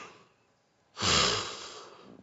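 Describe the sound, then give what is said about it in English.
A yawn, held back for a while, finally escapes as one drawn-out, breathy exhale that swells suddenly and then fades out softly. “I've been fighting that yawn. I think that's what's been throwing me off. So I finally just like let it out.”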